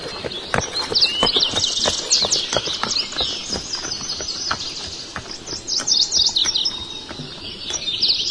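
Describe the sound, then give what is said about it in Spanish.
Horses' hooves clip-clop on cobblestones in a loose, steady rhythm of many sharp knocks, while birds chirp high and busily throughout. “El sonido de los caballos, el empedrado, las voces de los señores a la pasada.”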